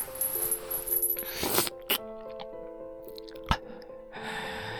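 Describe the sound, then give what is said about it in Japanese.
Fangs biting into a heart give a few sharp, wet crunching bites and crackles, separated by pauses, over faint sustained tones. “心臓にこの牙をくれてやるんだよ。”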